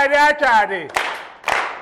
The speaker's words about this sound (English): So when I say achadi, it's just clap. And achadi means clap, clap.